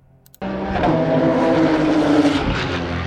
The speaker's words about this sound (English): They sound like, you know, yeah, street Porsches. And when you pitch them down...